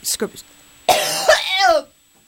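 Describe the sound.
Coughing and throat clearing from a person suffering from allergies: a couple of short, rasping bursts, then a longer, strained, voiced cough that trails off into silence.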